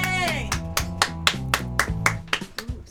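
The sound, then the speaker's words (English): Spy-style music with a low, steady bass line under sharp, regular percussive hits that fall roughly every quarter second throughout. “Ooh, spy music. Yeah, it is spy music. Mm-hmm. You feel sneaky just listening to it.”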